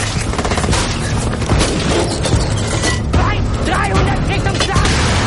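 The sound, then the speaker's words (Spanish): Mortars fire shells toward a forest in dense, loud, continuous booming and crackling blasts that overlap so closely that single shots cannot be told apart. “Comienzan a disparar los obusos hacia el bosque.”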